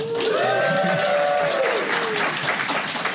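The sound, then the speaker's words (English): A live audience at a Parents Weekend event at Samford University applauds and cheers in steady, loud clapping throughout, with a shrill whistle rising above it early on. “this episode is a live episode. So we have an audience here. If you'd make a little bit of noise for our podcast listeners.”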